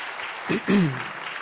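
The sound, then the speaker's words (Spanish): Audience applause for a church worship team: a soft, even patter of clapping, with a voice briefly speaking over it partway through. “¿Por qué no le das un aplauso conmigo al equipo de alabanza?”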